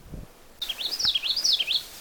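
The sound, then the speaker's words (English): A common yellowthroat, a small warbler, sings a short, high, rolling song of a few quickly repeated rising-and-falling phrases, clear and fairly loud over quiet background hiss. “That's a common yellowthroat. It's a kind of a warbler. The song is sort of like witchety, witchety, witchety, witchety.”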